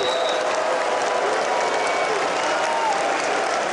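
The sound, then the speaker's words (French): Audience whistles and crowd noise at a Les Républicains political rally at La Villette as the mayor of Bordeaux takes the stage. A steady, dense roar of clapping and voices carries thin, shrill whistle tones. “Certains d'entre vous me sifflent.”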